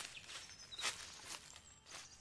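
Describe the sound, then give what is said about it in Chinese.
Faint footsteps of the thousand-year-old sacred tree grandpa, a character in a children's story about a riddle forest, approach as a few soft, scuffing steps over a low hiss. “哎，有脚步声传来，神木爷爷要出动了。”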